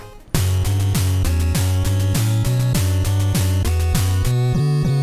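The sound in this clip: A pulse-wave chiptune melody from the 1993 video game Contra III, its duty cycle flipping between 25% and 50% for a wah-like timbre. Bright, buzzy notes repeat in a steady rhythm with small pitch slides and start abruptly after a brief silence.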